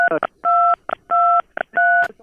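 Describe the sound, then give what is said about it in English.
Telephone keypad tones as someone presses numbers during a phone call: a series of loud, steady two-pitch beeps, some long and some clipped short, with no talk over them. “Someone was dialing numbers. I didn't hear you. Someone's hitting numbers.”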